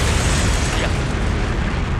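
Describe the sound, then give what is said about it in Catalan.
Roaring explosion from a video game as a blast hurls a bell off a platform, a loud, dense, sustained rumble of noise that stays level for the whole stretch without easing off. “Una explosió enorme llança la campana diversos metres fora de la plataforma, matant a un operari que passava per allà.”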